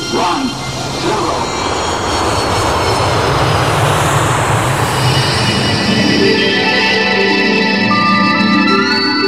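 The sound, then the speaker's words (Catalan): A spaceship takes off with a loud, steady engine roar like a jet, sustained and dense throughout, with high whining tones emerging in the second half. “Som a punt d'enlairar-nos amb la nau La Fell Llunars.”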